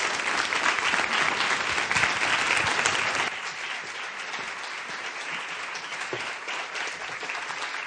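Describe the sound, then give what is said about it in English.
Audience applause welcoming a speaker at the Free Library in Philadelphia: a dense, steady wash of many hands clapping, loud at first, then settling to a slightly lower, even level for the rest. “would you put your hands together and give her a warm Philadelphia welcome”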